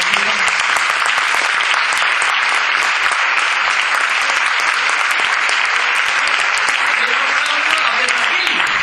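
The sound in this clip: Sustained applause from the audience at a public talk in Bilbao, dense and even clapping that holds at a steady loud level from start to finish.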